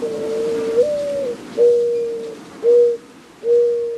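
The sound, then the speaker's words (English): A dove coos in four low, hooting phrases, each a steady, drawn-out note with short gaps between, clear over a faint background hiss. “And I was walking in the dirt by some oleanders, and I heard the dove.”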